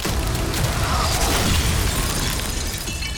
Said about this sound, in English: The ice exploded, and the figures all collapsed to one knee.